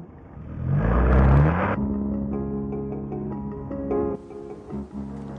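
A car engine drives close behind another car. It swells into a loud rev, then settles into a steady, humming engine drone with slight variations.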